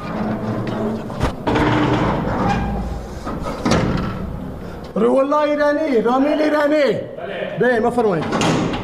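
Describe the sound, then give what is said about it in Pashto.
An iron door at Herat prison is opened by a guard, with a few heavy metallic clanks and a scraping slide. A man's voice then calls out loudly several times. “د هرات د زندان یو ساتونکی د دغه محبس اوسپنیزه دروازه خلاصوي او پر دوو ایرانی بندیانو غږ کوي.”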